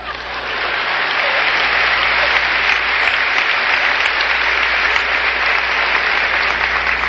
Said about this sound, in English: it's premature, your applause, you will soon know why.